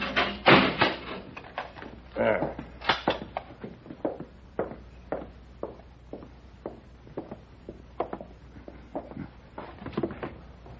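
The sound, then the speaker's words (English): A cell door being shut and locked, heard as a long irregular run of many sharp knocks, clicks and rattles of varying loudness, with no talk over them. “All right, Paladin, but I'll have to lock you in.”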